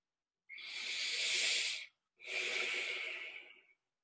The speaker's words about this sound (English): and exhale, two, three, four, let it go, release. Just witness, normalize the breath.